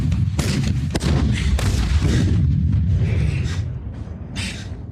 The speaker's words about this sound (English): Big shootout. A staggering number of, like, just the body count of Charids is incredible.